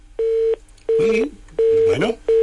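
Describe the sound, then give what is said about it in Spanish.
Repeated telephone tones after a dropped phone call: several steady, evenly spaced mid-pitched beeps with short gaps between them, while voices talk over them. “la llamada se ha perdido, a ver si la retomamos”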